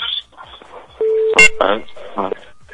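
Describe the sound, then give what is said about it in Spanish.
A caller's phone line drops during a call-in show: a steady electronic tone sounds for a moment, then a sharp burst, with people talking before and after. “se nos fue la llamada”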